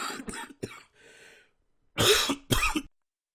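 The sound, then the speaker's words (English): A person coughs and clears their throat. A few short, dry coughs and a quieter rasp are followed by a pause, then two loud, harsh coughs close together. “I decided to just mute my mic instead of having the cough go on and on.”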